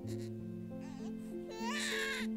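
A faint infant cry comes from a baby who may be sick and is crying inconsolably while its mother tries to soothe it. Soft whimpers swell into a brief, louder wail near the end, over a steady low tonal backing.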